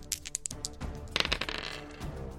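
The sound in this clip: Dice rattle and clatter faintly for a tabletop role-playing damage roll of two d4s, with scattered light clicks followed by a denser burst of rattling near the middle.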